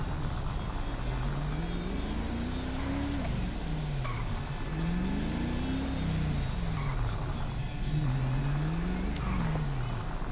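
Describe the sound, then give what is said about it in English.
Police Ford Explorer driving fast in a video game: a low engine tone that repeatedly climbs and then drops, like acceleration through the gears, over a steady noisy background. “Driving real fast in this Explorer.”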